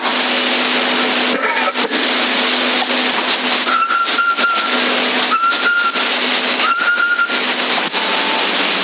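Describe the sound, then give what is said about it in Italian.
A CB radio carrier whistle on 27.075 MHz sounds as three short, high whistle tones recur over constant narrowband radio hiss, with intermittent crackles and dropouts between them. “Dalla portante, dal fischio?”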